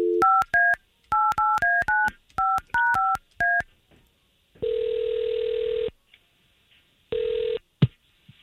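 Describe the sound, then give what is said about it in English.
Keypad tones from a telephone number being dialed, a quick run of about a dozen short beeps, then a long steady ring tone, a second shorter ring and a sharp click as the line connects. “we're going to try to call him right now.”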